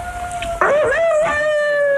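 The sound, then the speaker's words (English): A seven-week-old puppy howls in a long, loud, high-pitched tone that wavers, dipping and rising midway before settling into a steady drawn-out note. “You'll have to excuse the dog, listeners, but he doesn't know we're on the radio. How old is this dog? Seven weeks”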